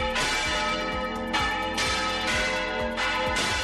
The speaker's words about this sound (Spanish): Este es el sonido de la campana del propio templo y que lleva sonando desde el año 1224.